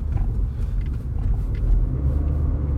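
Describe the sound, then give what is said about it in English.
Steady low rumble of a car driving on the road, a continuous engine and tyre drone with no talk. “I'm driving right now at work.”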